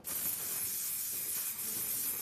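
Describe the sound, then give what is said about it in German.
Hairspray hissing out of a can as it is sprayed onto a pair of underwear: one steady, loud, airy spray held for about two seconds with no break and no voices. “Ich habe doch hier irgendwo Haarspray mitgenommen. Dann würde ich sagen, wir probieren das aus. Wir sprühen deine Unterhose fett ein.”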